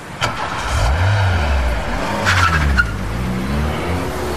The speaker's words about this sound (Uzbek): Avtomobilingiz tezligidan zavqlanasiz.